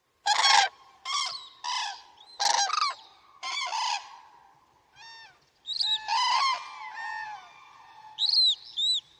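An adult and a juvenile bird call together in loud, nasal, honking squawks. The calls come in a series of separate bursts with short pauses between them, and some are thinner and fainter than others.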